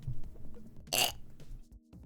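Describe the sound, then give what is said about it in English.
A single short, raspy burp, quiet overall, standing out briefly from faint background noise. “Wait, how do I burp?”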